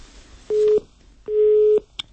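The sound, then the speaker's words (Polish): Telephone busy signal after a caller to a radio call-in line hangs up: two steady, mid-pitched electronic tones. The second tone is longer than the first, and a short click follows it. “Rozłączył się słuchacz.”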